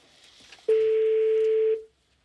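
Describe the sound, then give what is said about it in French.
A single long, steady ringback tone sounds on an unanswered telephone call. It is a flat, mid-pitched beep lasting about a second, then it stops and silence follows. “J'espère que quelqu'un va répondre. Au moins qu'on ait un indice sur le répondeur. Ça sonne dans le vide.”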